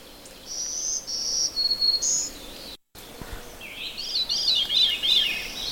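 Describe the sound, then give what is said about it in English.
A veery sings its flute-like song: clear, high whistled phrases that step down in pitch. A short pause follows, then a longer, spiralling run of fluttering notes. The song is fairly soft over a quiet background. “That kind of flute-like sound is a veery.”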